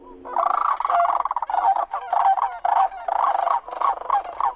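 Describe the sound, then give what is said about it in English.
Sandhill crane calling: loud, rolling, rattling bugle calls repeated in a dense run of overlapping bursts, each with a throaty, trilled quality, with only brief gaps between them. “The sandhill crane, I gather, is that sound. I love that sound”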